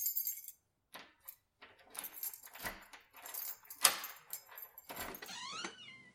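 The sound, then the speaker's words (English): Keys jangle and rattle in a door lock of a dark apartment: several metallic clinks and scrapes come in uneven bursts over about six seconds, with a short squeak near the end. “The detectives hunkered down in the dark apartment to wait. A half hour passed. Then another half hour. Finally, the lock rattled.”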